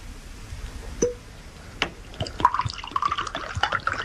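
Whisky is poured into a glass with a trickling, splashing sound. Scattered drips come first, then a steadier stream runs with a faint, slightly rising ring as the glass fills.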